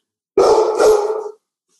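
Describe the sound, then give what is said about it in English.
A dog gives one loud, drawn-out bark lasting about a second, heard alone with silence on either side. “to that barking good boy.”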